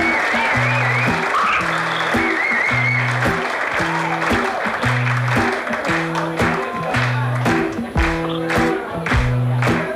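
An audience claps along in steady rhythm during a live music recording, the sharp claps cutting through a loud, repeating melodic pattern that runs throughout.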